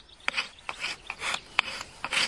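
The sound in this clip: The back of a knife scrapes shavings from a piece of fatwood: many quick, dry rasping strokes in an uneven rhythm, each a short bright scratch, with no talking.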